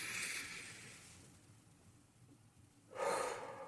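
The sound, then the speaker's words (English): A deep inhale during a guided breathing exercise. A soft, airy breath comes at the start, then the breath fades to quiet before a stronger rush of inhaled air near the end, with no talking. “Last one, inhale.”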